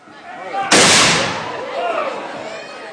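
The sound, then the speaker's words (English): A single musket shot from a colonial marching band at a parade cracks out loud and sharp, then decays into a fading rumble, with faint voices around it. “You will now hear them firing a single musket shot.”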